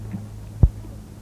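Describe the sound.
A heartbeat pulse sound effect gives a single deep, soft thump over a steady low hum.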